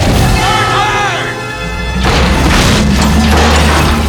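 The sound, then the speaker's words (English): Underwater subpods crash into each other and explode: a voice speaks first, then a sudden loud booming crash gives way to a sustained heavy roar and rumble. “The monster attacks the subpods, which crash into each other and explode.”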